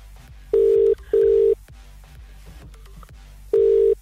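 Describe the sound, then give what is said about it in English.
Outgoing phone call ringing tone: steady mid-pitched beeps, a quick pair followed after a pause by another, over a low background hum with no one speaking. “Here we go. Oh, we're dialing up. See where it lands.”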